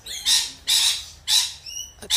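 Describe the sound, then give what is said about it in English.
Rainbow lorikeets squawk in three loud, harsh, high-pitched screeches in quick succession. Thinner tonal chirps follow, and another squawk begins at the end. “Oh, those it's the rainbow lorikeets.”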